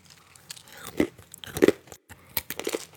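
A cookie is unwrapped and eaten, with soft crinkling and tearing broken by a few sharp, crisp crunches spaced out over a few seconds. The sounds are fairly quiet and there is no talk.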